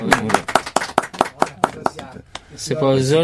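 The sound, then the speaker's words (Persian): An audience claps after a poem recitation, a run of sharp, evenly spaced claps lasting a couple of seconds before a voice begins speaking. “تشویق کنیم”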